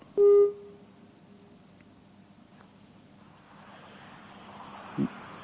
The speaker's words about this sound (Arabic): الصوت يتقطع انقطع الاتصال معنا